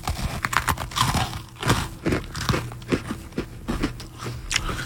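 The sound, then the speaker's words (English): Someone eats chicken and waffles with an open mouth, making many wet smacking chews and crunchy, crinkly bites in an uneven rhythm. The eating is fairly soft, and no one talks. “People listening to radio love to hear personalities eat on the air. I'll eat with my mouth open to get the sounds.”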